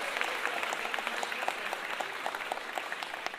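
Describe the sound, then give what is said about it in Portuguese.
Audience applause: a quiet but steady patter of many hands clapping, with individual sharp claps standing out, continuing evenly throughout. “aplaudir, hein, gente? O aplauso é importante!”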